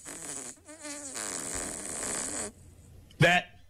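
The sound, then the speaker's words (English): Fart sound effects played from a phone app, a long, buzzy, rasping blast broken by a short gap, then a brief, louder squeaky burst after a pause. “I knew this fart app was going to come in handy again.”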